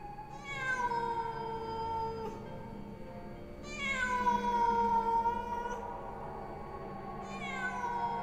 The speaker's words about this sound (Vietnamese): Tiếng con mèo kêu lên